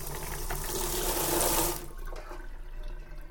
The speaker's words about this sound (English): Noisy, great big sink here.